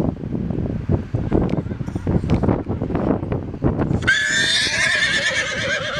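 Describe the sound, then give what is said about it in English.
A horse whinnies with a loud, high, quivering call that wavers up and down near the end, after a stretch of rough wind buffeting and thumping noise. “A whinnying horse.”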